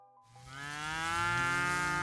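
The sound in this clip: A dairy cow moos before milking, one long, loud, sustained call with a rich harmonic tone that rises slightly in pitch as it swells.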